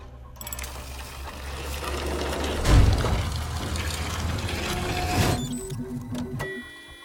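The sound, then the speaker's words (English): A printer whirs and ratchets as it fabricates a boxy compact pistol, a steady mechanical churn of gears and clicking that swells twice before tapering off at the end, with no voices. “Meanwhile, the printer makes a boxy compact pistol.”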